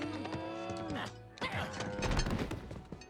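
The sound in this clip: Cows mooing in an animated cartoon: several drawn-out, overlapping moos mixed with clattering, crashing noises and scuffling.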